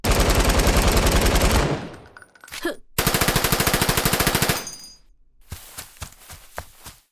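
Loud automatic gunfire from a team shooter video game: two long bursts of rapid, evenly spaced shots with a brief gap between them, then a few sharper, scattered single shots.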